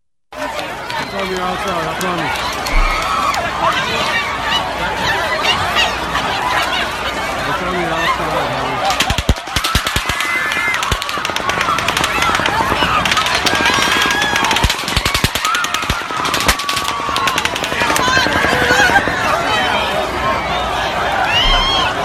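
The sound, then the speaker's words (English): Rapid automatic gunfire during the Las Vegas mass shooting comes in several bursts of fast cracking shots. Crowd voices and shouting continue throughout. “That was the machine gun fire, in case you didn't know. There were three rounds of that.”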